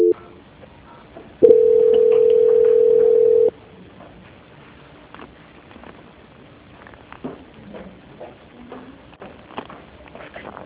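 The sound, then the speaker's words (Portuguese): Telephone tone on a line while a call is transferred to an extension: one loud, steady, unbroken tone lasting about two seconds, then quiet background noise with faint clicks. “Eu tô aguardando ele atender lá o ramal. Tá ok. Transferência.”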